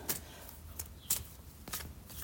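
Tarot cards being shuffled give several sharp, crisp riffling snaps at irregular intervals over a quiet background, with no voices.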